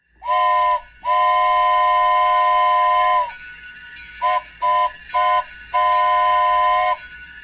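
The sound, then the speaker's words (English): A train whistle sounds as a train arrives: a loud, steady chord-like tone given as a short blast, a long blast, three quick toots, then one more long blast. “Here comes the planet train.”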